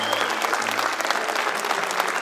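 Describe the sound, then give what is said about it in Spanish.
Applause rises from an audience honouring Chilean payadores at a canto a lo poeta gathering. It is thick, continuous clapping at a steady loudness, with no gaps and no voices. “Los payadores chilenos que están aquí hoy día vinieron todos gratis, no hay un horario para ellos, así que un aplauso, porque ellos vinieron por la buena onda solamente, ¿eh?”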